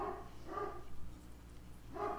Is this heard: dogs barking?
yes

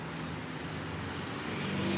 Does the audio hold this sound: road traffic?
yes

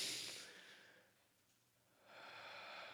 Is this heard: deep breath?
yes

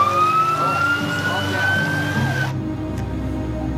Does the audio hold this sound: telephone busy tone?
no

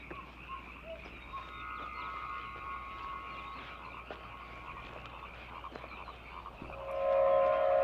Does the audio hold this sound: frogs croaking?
yes

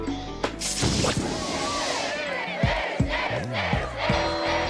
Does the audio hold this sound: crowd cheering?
yes

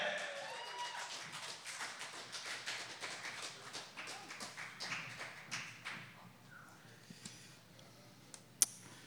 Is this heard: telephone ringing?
no

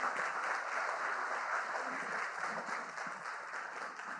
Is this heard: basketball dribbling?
no

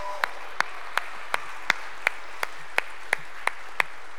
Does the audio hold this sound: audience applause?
yes

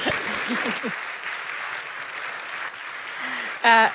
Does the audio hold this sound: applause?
yes

